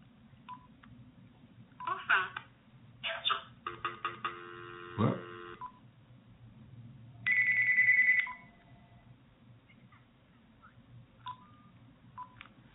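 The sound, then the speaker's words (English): An incoming telephone call rings in a few short electronic tone bursts, then one longer steady ring, fairly faint over a low background hum. “let's see, we got a call here. Hold on a second.”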